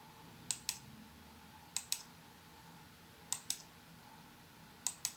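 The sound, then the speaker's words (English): Computer mouse clicking at home during a workday: four evenly spaced double clicks, sharp and crisp against a quiet hiss. “That's the sound of my mouse clicking. It's probably the sound I hear all day long, maybe even in my sleep.”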